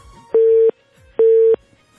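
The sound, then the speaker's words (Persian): Telephone busy signal after a dropped call: two steady, mid-pitched electronic tones of equal length, loud and evenly spaced, with quiet gaps between them. “تماس تمنا جان قطع شد.”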